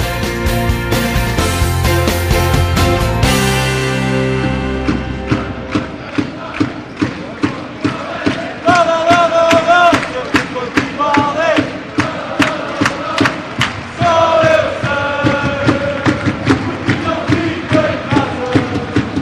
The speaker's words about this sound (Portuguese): mais de 2 mil pessoas não ficaram em casa e encheram o pavilhão multiusos. Uma verdadeira loucura ontem em Odivelas para ver o Sporting garantir a Final Four da UEFA Futsal Cup